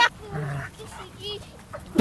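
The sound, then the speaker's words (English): An Alaskan Malamute barking, with a few short, gruff, fairly faint vocalizations scattered among people talking. “That's not a husky. It's got to be an Alaskan Malamute.”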